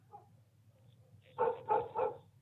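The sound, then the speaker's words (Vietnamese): Dogs barking outside at night: three quick, mid-pitched barks in a row near the end, after a low steady hum with faint background noise. “Đang nghe chuyện say sưa thì ở bên ngoài, chúng tôi nghe loáng thoáng có tiếng chó cắn ma.”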